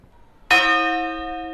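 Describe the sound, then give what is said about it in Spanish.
A single strike on a church bell cast in 1305 and weighing about 700 to 800 kilograms, with a bright, sudden attack followed by a long, steady ring of many tones that slowly fades. “Vamos a darle un golpe a la campana para oír qué sonaba”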